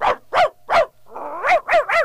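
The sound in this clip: Dog barking in a quick run of loud, sharp barks, with one longer, drawn-out sound near the middle; no talk over it.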